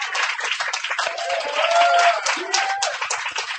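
Audience applause at a reading, dense steady clapping that fills the whole stretch at an even, fairly loud level.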